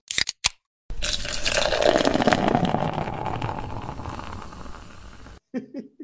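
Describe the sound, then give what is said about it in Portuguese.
A drink can snaps open with a couple of sharp cracks, then a long, steady fizzing pour of the drink into a glass runs for several seconds before cutting off. “Bota aí antes o barulhinho aí, abrindo aquela velha latinha, entendeu?”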